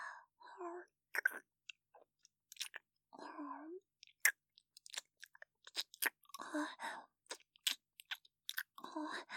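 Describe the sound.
Crunchy chewing and biting of food, many short, dry crackling bursts in an irregular rhythm, with soft, breathy mouth sounds between bites.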